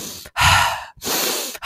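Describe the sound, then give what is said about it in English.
A person imitates someone mouth breathing while asleep: two long, loud, airy breaths with a raspy, hissing texture, separated by brief pauses. “he was imitating like I was mouth breathing”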